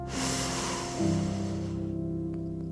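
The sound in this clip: A deep breath in and out, heard as a long airy rush that fades away over a steady low droning tone.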